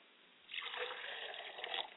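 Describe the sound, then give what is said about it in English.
Water poured onto the ground as a libation: a soft, hissing splash starts suddenly and runs on evenly for over a second, faint and without voices. “As I pour libations to the south, I say, Ashe. Ladies and gentlemen, may the water that hits the ground, may it take root.”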